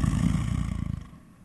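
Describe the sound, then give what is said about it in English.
A lion sedated by a tranquilizer dart snores in deep, rumbling low pulses that beat in a quick, steady rhythm, then fade away near the end. “Lions hunt at night and nap all day. This is a snoring lion.”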